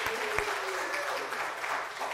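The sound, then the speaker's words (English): An audience applauds the praise and worship band. The clapping is a steady, dense wash of many hands that stays fairly even in loudness from start to finish. “Let's give another round of applause to our praise and worship band.”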